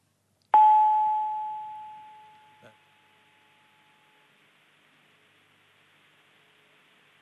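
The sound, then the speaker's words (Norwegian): A single telephone tone heard during a call to an embassy: one steady, mid-pitched beep that starts sharply and fades over a few seconds above faint line hiss, followed by a brief click. “Men vi prøver å ringe Arap Moi, Kenya for å fortelle.”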